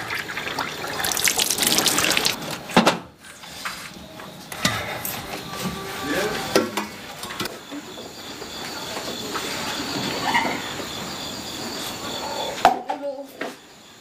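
Water splashes and pours onto paper drawings in a continuous rushing wash, briefly breaking off near the middle and again just before the end.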